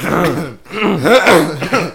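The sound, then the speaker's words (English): Throat clearing and coughing from a person: a few rough, voiced rasps and short hacking bursts close together, fairly loud, with a small catch of breath at the end. “Sorry, my bad. I think I got something stuck in my throat.”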